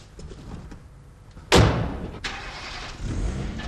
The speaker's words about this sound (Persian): سواری به راه میفتد.